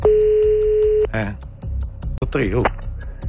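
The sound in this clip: A ringback tone sounds on a phone call: one steady electronic tone holds for about a second, then people talk.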